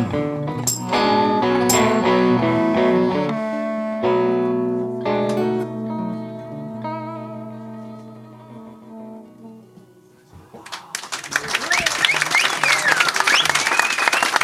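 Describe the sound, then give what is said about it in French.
Crowd applause after a live blues band finishes a song. The band's last sustained chords ring out and slowly fade, then loud, dense clapping breaks out and keeps going to the end. “Voilà, vous pouvez les applaudir.”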